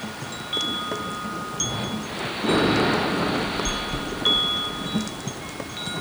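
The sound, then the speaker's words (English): Light rain falling in a seaside soundscape: a soft, steady hiss of drops that swells into a fuller, louder wash midway and then settles back to a gentle patter. “And a little rain.”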